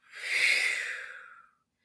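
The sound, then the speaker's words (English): A single deep breath blown out slowly, a soft breathy hiss that swells and then fades over about one and a half seconds, heard alone. “Take a deep breath in. Blow it out.”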